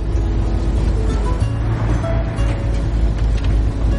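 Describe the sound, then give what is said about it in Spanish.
Steady engine and road rumble from a van driving on a highway: a continuous, loud low drone with a faint, even hiss of tyres and wind running through the whole stretch. “Chloe conduce por una autopista.”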